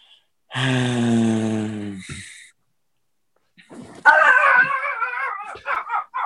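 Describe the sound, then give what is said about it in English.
Dogs make a long, high whining howl, fall silent, then break into a burst of excited yelps and barks. “those are my dogs. Sorry.”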